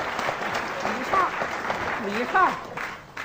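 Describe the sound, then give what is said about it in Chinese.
Audience applause welcoming performers to the stage: a rush of clapping with people shouting and calling out over it, swelling in a couple of bursts before tapering off at the end. “鼓掌欢迎！”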